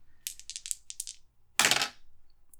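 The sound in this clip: Dice rolled during a tabletop role-playing game: a quick run of light, sharp clicks and rattles, then a short, louder clattering burst as they tumble and settle. No voices.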